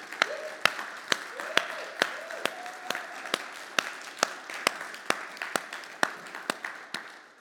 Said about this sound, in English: Can we just give them a hand this morning?